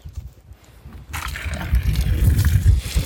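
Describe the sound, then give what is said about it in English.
Water sloshing and splashing as maple syrup buckets are cleaned out. It is quiet at first, then becomes louder, continuous swishing and churning. “So we're just cleaning out some buckets.”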